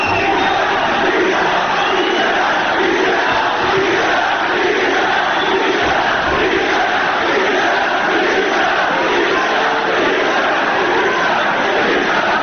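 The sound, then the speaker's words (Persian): Loud football stadium crowd chanting mild insulting slogans in unison, a dense, continuous roar of massed voices that holds steady throughout. “اما بریم رو شعارهای توهین‌آمیز که اونم چند بخشه، کم زهر و خیلی زهردار. این صدا رو بشنوی.”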